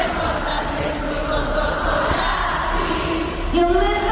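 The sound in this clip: A large concert crowd sings along in unison at a pop band's reunion-tour show in Barakaldo, a dense, sustained chorus of voices with a steady melodic line that swells slightly near the end.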